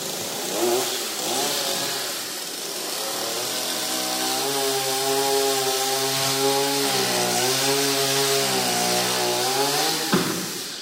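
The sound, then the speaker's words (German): A motorized saw cuts through an object, with a loud, continuous buzzing engine whine whose pitch wavers slightly as the blade works. It ends abruptly with a brief clunk. “Er hat kürzer gesägt als ich und das Ding ist schon durch.”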